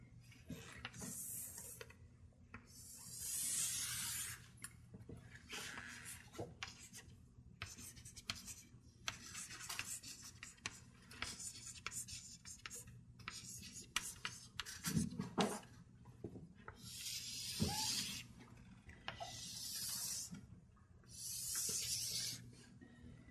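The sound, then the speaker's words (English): Pen scratching across paper while a matrix is written out by hand, with many short scratchy strokes in bursts over a low steady hum. “What I'm trying to do is write down this H matrix”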